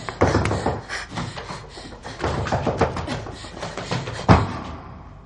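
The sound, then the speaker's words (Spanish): Someone standing on a cot bangs on a ceiling, making many irregular knocks and thuds in a rapid series, with one heavier blow near the end. “Se sube a él para golpear el techo.”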